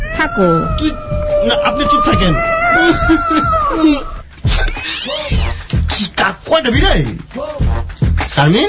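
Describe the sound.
Cat meows and drawn-out caterwauling cries, several wavering tones in a row, mixed with loud voices talking and exclaiming.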